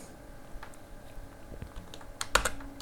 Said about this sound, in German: Dann drücke ich jetzt Steuerung A.